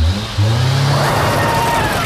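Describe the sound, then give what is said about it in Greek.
A sports car engine, the new European-built Linklong Sportmaster, revs hard. A deep roar kicks in after a brief low rumble and holds loud and steady to the end. “Το νέο Linklong Sportmaster ήρθε για να επαναπροσδιορίσει την οδήγηση.”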